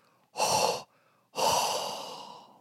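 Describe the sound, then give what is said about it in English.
Warm breath exhaled by a person, heard alone as a short breath followed by a longer, airy exhale that slowly fades away. “Hot breath.”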